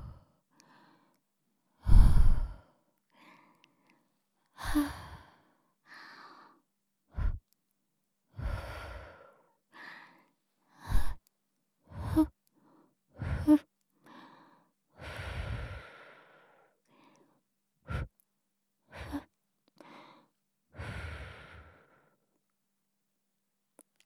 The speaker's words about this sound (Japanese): 梵天も終わり。最後にお耳ふってしてあげよう。